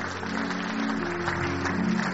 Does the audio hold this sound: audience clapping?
yes